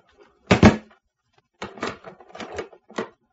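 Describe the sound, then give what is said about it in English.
A door lock clicks shut with a sharp metallic clack, then a short run of lighter clicks and rattles from the latch and key. “The click of the lock was an unpleasant sound somehow.”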